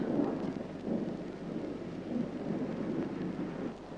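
Low rolling thunder and steady storm noise from a thunderstorm fill the whole clip, swelling in loudness a few times without breaking, and no voices are heard.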